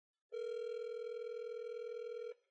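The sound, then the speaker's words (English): A telephone tone sounds as a call is placed at 10:30 at night: one steady, unbroken mid-pitched tone with a buzzy edge holds for about two seconds, then cuts off cleanly, with no talk. “I'm going to call, should I call Jake now? What time is it? It's 10:30 at night. Let's give Jake a call.”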